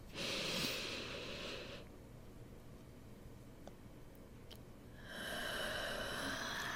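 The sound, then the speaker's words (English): A deep breath drawn in through the nose during a relaxation exercise: a soft, airy rush lasting under two seconds, then a quiet pause before a second steady, breathy sound. “I need you to take a deep breath with me in order to proceed to our relaxation. 3, 2, 1, breathe in.”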